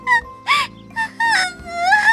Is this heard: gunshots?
no